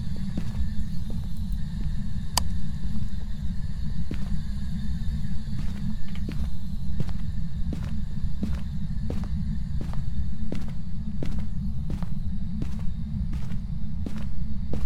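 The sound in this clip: Footsteps of a running character in a video game, a steady, evenly spaced beat of many crisp taps over a constant low rumble, with no voices.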